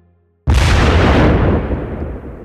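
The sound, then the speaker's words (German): A decomposing dead whale carcass explodes: near silence gives way to one sudden, loud blast, followed by a dense, roaring burst of noise that slowly fades over about two seconds. “Denn Wale, wenn sie länger da liegen und verwesen, können explodieren.”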